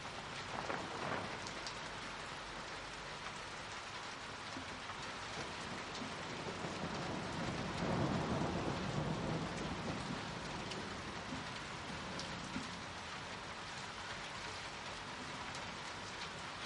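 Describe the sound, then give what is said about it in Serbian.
Heavy rain pours down in a steady, loud downpour, a dense hiss of drops drumming on surfaces that swells briefly midway, with no voices. “A evo, baš počinje pravi pljusak.”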